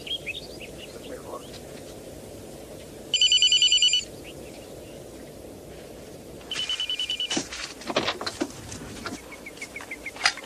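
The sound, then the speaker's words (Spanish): An old telephone bell rings in two separate bursts. The first is loud and lasts about a second, and the second is slightly longer and more uneven. Both sound over a low, steady background with scattered faint chirps. “Teléfono.”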